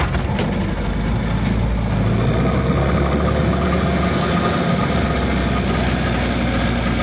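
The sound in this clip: A small pleasure boat's engine idling on a lake near Wasilla, a continuous, even rumble with a broad mechanical hiss that holds steady throughout, with no talk over it.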